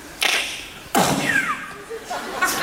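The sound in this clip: A voice imitates a silenced gunshot and an ejected shell casing: two sharp breathy bursts, the second trailing into a falling whistle, followed by faint small ticks.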